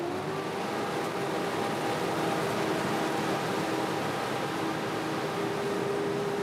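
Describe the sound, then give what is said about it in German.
A threshing machine on a test run, with the threshing drum turning. It makes a loud, steady mechanical drone with a constant tonal hum running through it, unchanging throughout and with no voices. “Karl Wiedemann soll die Maschine Probe laufen lassen. Werner Eberhard will gucken, wie viel Öl an der Dreschtrommel austritt.”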